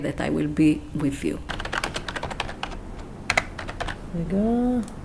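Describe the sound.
Fingers type an e-mail on a computer keyboard in a new office, a rapid, uneven clatter of key presses. Voices speak briefly before and after the typing.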